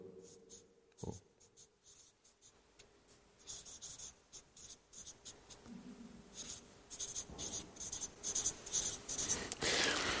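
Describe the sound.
A pen writes by hand on paper in many quick, faint scratching strokes, sparse at first and then growing busier and a little louder.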